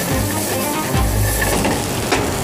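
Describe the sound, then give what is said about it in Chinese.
Onions stir-frying in rendered white ham fat give a loud, steady, dense sizzle throughout, with occasional stirring scrapes and no talk. “然后用火腿的白色的肥做底，然后炒香，把那油脂炒出来，然后加洋葱在里面一起去爆香，”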